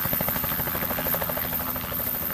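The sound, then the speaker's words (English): A helicopter flies up into the mountains above Cape Town, where there are no roads. Its rotor makes a rapid, steady chopping pulse over a continuous engine drone, fairly faint and unbroken throughout. “The only way up there is by helicopter.”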